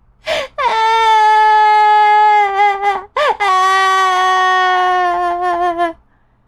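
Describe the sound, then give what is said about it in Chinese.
Loud, drawn-out crying of a family in a children's story about little mice, heard as two long, high, tonal wails split by a short break, each sustained for several seconds and then tailing off. “大家看到爸爸哭了。也跟着大哭起来，”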